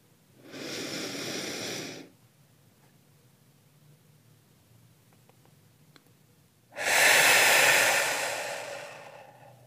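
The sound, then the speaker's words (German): A forceful breath pushed out through the mouth during a guided meditation breathing exercise: two long, airy rushes of air separated by several seconds of quiet, the second louder and slowly fading. “Halte einen Moment, wenn du magst, und atme dann nochmal richtig kräftig durch den Mund aus.”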